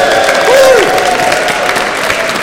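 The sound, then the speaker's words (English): A live audience applauds and cheers for the event's microphone handler: a dense wash of clapping, with one voice whooping in a rising-then-falling call near the start and crowd noise holding steady throughout. “Give Scott a round of applause.”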